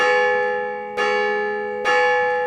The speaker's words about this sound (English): Every night, they'd go to sleep, and every morning, the bell would ring.